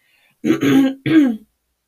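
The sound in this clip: A person clears their throat in two short, rough, voiced bursts, loud and alone against silence.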